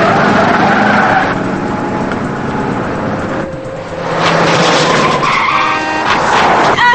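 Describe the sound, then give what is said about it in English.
Tires skidding and squealing over roaring engines during a car chase as a car swerves to dodge another car, loud and continuous throughout, briefly easing in the middle before surging back. “Joe braces himself as Lila dodges another car. Thurlow nearly causes an accident, but Lila remains behind him.”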